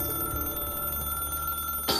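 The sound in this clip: A telephone rings in a steady, continuous tone, then an answering machine cuts in with a sharp click near the end.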